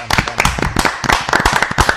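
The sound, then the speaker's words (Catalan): A small audience applauds at a talk about women joining the castellers, the Catalan human-tower tradition, with sparse, irregular sharp claps from a few pairs of hands rather than a dense roar. “un aplaudiment per l'entrada de les dones al món casteller”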